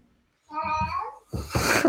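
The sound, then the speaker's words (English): A cat meows once with a questioning tone: a clear, harmonic call followed by a brief, noisier burst. “that meow there was so questioning too. It went up at the end.”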